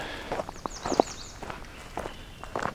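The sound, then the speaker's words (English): Footsteps on a short outdoor walk among birds: several irregular, soft crunching steps, with faint high bird chirps above them. “So, got a little short walk here.”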